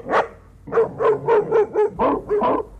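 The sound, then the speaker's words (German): Three dogs bark angrily as they rush at a gate, the largest a shaggy grey shepherd dog. A rapid, steady run of loud, sharp barks follows a single opening bark, with no talking. “Drei Hunde drangen mit zornigem Gebell auf uns ein.”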